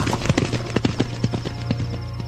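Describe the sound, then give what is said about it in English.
Horses' hooves clip-clop in a quick, steady rhythm of many sharp knocks, with a low hum running underneath. “Mount up, we ride tonight for the coast. There'll be a ship. What about Priscus, shouldn't we take... Priscus is history! Ride!”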